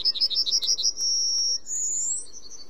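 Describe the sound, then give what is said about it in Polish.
A corn bunting sings: rapid high ticking notes run into a dry, jingling trill, then a brief higher sustained note. The bird is heard alone, without talk. “usłyszeliśmy tego cznadla dzięki Tomaszowi Ogrodowczykowi”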